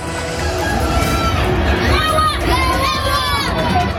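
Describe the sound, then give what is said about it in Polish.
A crowd of fans, many of them Florida's Polish community in white and red, shouts greetings and cheers for footballer Robert Lewandowski, a dense, continuous hubbub of overlapping voices with a few raised calls standing out. “Jak słychać, na Roberta Lewandowskiego czekali jego fani. Było trochę osób w biało-czerwonych barwach. To głównie Polonia z Florydy. Witamy w Ameryce. Niektórzy przywitali go takimi okrzykami lub napisami na flagach.”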